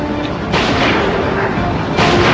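Gunfire and explosions from a sniper video game, with missiles incoming, form a dense rumbling wash broken by sudden booming bursts that leave the noise louder.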